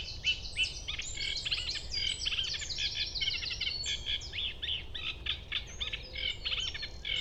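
A bird sings at dawn, about five minutes before sunrise, in a rapid, highly varied and modulated song of high-pitched chirps and trills that runs continuously over a soft low background hum.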